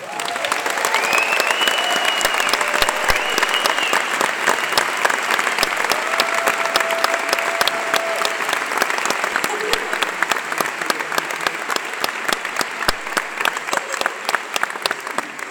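Steady, dense applause from a concert audience greeting a singer's introduction during band introductions, sustained clapping that holds at an even level throughout with no break.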